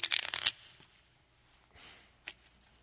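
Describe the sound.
Playing cards shuffled for a game of solitaire, with a brisk, crackling riffle at the start followed by softer rustling and handling sounds.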